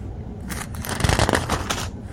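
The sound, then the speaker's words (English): Pages of a book are folded with a continuous crinkling, papery rustle that swells slightly midway and stays steady throughout. “Now, I'm trying to fold these pages and read both of them.”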